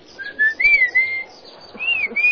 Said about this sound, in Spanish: Precisamente ahí estaba el chiflido mazateco.